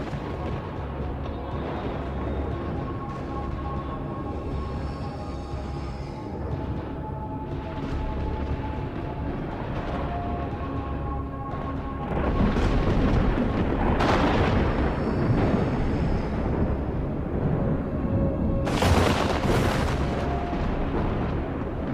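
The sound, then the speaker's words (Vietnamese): Thunder sound effect: a dense, continuous rolling rumble of repeated thunderclaps that swells louder partway through, with a few sharper cracks bursting out above the roar. “Sấm sét hết đợt này lại đến đợt khác liên miên không ngớt.”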